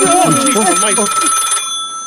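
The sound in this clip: An old telephone that has sat unused for twenty years rings with a loud, steady, shrill bell tone throughout, overlapped by a voice during the first part before the ringing continues alone.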